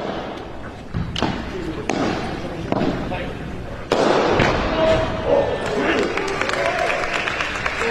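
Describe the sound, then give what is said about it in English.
Tennis racket strikes ring out during a match: a few sharp ball hits, then a loud, full-power flat smash, followed by a broad swell of crowd noise. “Maximum power off the flat smash. That was just teed up there for him to attack.”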